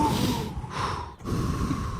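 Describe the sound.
A deep breath is drawn: rough, airy rushes of air broken by a couple of brief pauses, moderately loud, with no talking.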